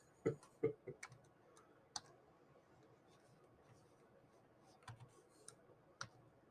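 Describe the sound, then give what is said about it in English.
Quiet typing on a computer keyboard: sparse, faint key clicks in small clusters with gaps between them, soft and unhurried. “I'm going to type quietly.”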